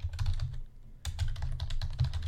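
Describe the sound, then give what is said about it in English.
Typing on a computer keyboard: many rapid, crisp key clicks in an uneven flurry, with a brief pause partway through before the typing resumes, heard with no talking. “Hang on, let me take, let me type in. What is Google's quarterly earnings?”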